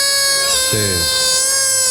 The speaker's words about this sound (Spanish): un chaval que se llamaba Pablo Pedro Óscar, le enseñó a tocar la gaita a Berto. Como podéis ver, no sirvió de nada